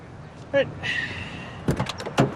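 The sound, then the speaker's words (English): Someone climbs out of a police car, with a few short, dull door clunks and shuffling thumps, preceded by brief voice-like sounds. “A handcuffed sturgeon slowly gets out of the police car.”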